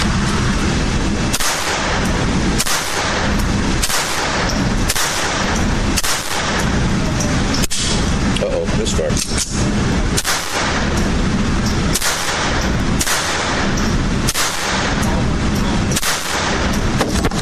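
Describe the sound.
Gunshots ring out at a target shooting range, many loud, sharp reports fired in a fairly steady rhythm about once every second or so, each followed by a short decay.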